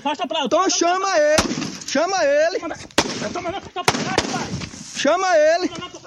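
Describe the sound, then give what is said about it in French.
Gunshots fired into the air by the guard of a future cotton plantation in Brazil's Cerrado; a few sharp, loud cracks spaced apart, cutting through raised talking voices. “Voilà, des tirs en l'air de la part du gardien d'une future plantation.”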